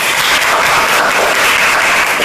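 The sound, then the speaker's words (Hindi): Audience applause for school quiz teams at the close of a quiz programme, a loud, dense wash of clapping that stays even throughout. “तो आप लोगों के लिए भी जोरदार तालियां।”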